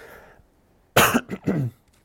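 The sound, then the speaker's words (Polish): A cough from a person with a cold: one loud, rough burst followed by two shorter hacks. It breaks a near silence and has no talk around it. “Chyba jestem trochę podziębiony. Przepraszam Was za ten kaszel.”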